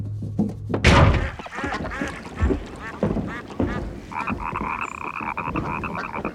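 A frog croaks on a spring night by an old harbour, with repeated rasping calls that settle into a long, steady buzzing croak toward the end.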